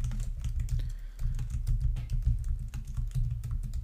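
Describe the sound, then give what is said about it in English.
Typing on a computer keyboard while entering text into a web page, a quick, uneven run of many crisp key clicks at moderate volume with no talking. “So I'm gonna just type enter your name here.”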